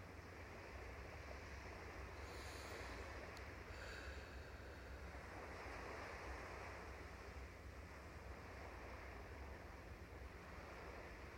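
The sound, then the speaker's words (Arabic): Ocean waves break on a beach in a continuous, faint, hissing wash that swells and recedes gently, with no voices. “عم نسمع صوت الموج خلينا نقعد على هيدا الشط”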